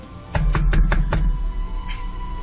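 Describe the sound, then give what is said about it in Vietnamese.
Knocking on a door: five quick, firm knocks in an even rhythm, heard alone over a low steady hum. “Thầy đến gõ cửa.”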